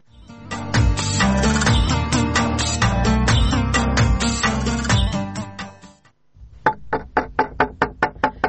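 Knuckles knock on a door that will not open, in a quick, evenly paced run of sharp raps. The knocking follows a long, loud, dense stretch of sound.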